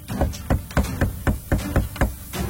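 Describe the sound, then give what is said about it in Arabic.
Knocking on a door: a steady run of many sharp, hollow raps at an even pace, fairly loud, with no voices over it. “ابصر مين بدقدق”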